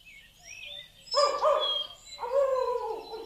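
Bird calls from a flock of island birds feeding on unripe barley in a field: a few squawky, warbling calls with sliding pitch come in two main bursts, moderately loud, with no talk.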